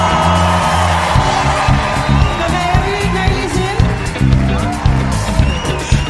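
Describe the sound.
An audience cheers and whoops for a band's vocalist at a live show. The loud, continuous crowd noise rides over rhythmic low thumps of music, and voices shout through it.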